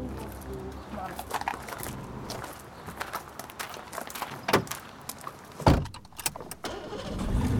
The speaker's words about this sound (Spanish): Me encanta este auto. ¿Qué auto es? Una chochera. Es un mini.